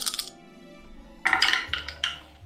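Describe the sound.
New dice rolling during a tabletop role-playing game: a quiet burst of rattling clicks and clatters, with a few brief clicks before it, ending in softer settling taps.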